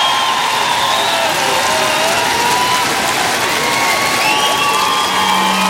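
A concert crowd in Lille applauds and cheers: loud, continuous clapping under sustained shouts and whoops from many people, holding steady throughout.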